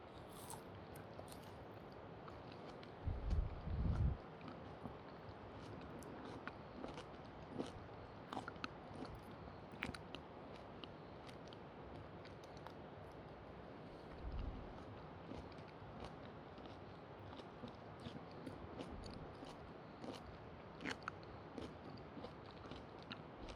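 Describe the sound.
Biting and chewing of juicy, bite-sized food, mostly soft and faint, with a few louder, crunchier bites standing out from the steady chewing. No talking.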